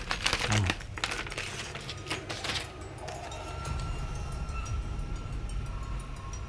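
Crackly ripping and crinkling as tape is torn from a haphazardly taped-up package. A few seconds of quiet, rasping tearing fade into soft, steady rustle.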